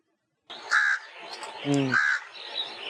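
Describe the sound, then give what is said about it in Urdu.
Harsh crow caws, a few loud rasping calls in short bursts with brief gaps between them, played as a quiz sound to identify. “کوا کون تھا یہ؟ کوا تھا. جی بھائی کوا تھا.”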